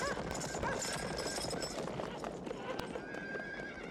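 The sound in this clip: Horses' hoofbeats clatter in a dense, continuous rush of many hooves, with horse whinnies and general commotion mixed into the loud, noisy texture.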